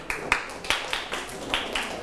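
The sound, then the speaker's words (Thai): Scattered hand claps from students applauding a classmate during a lesson: a few sharp, uneven claps over a steady background hiss, without a settled rhythm. “ปรบมือให้เพื่อน”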